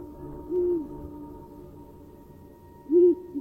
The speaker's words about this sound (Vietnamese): thỉnh thoảng có tiếng con chim cú đi ăn đêm, nó rúc lên từng hồi ghê rợn.